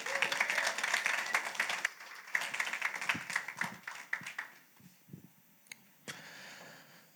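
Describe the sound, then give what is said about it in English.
A church audience applauds to welcome a speaker to the pulpit for a morning service. The dense, steady clapping holds for several seconds, then thins into scattered claps and fades out. “And so I want you to just put your hands together and welcome Andrew to the pulpit this morning.”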